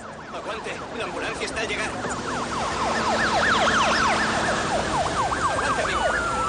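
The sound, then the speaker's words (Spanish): Wailing sirens from a police car and a fire truck crossing a bridge, with rapid rising-and-falling sweeps layered over a low engine rumble. The sound swells louder through the first half and stays strong. “Un coche de policía y un camión de bomberos cruzan un puente.”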